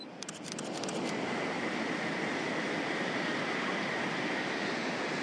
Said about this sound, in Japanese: 新幹線来たじゃん